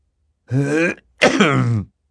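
A man clears his throat twice. The two short, rasping bursts are separated by a brief pause, and no other sound is heard.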